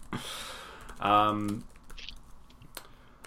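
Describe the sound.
Someone types quickly on a computer keyboard, producing scattered, uneven clicks. A brief voiced sound breaks in partway through, and the keystrokes then carry on more lightly.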